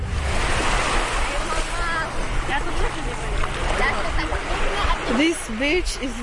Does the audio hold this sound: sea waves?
yes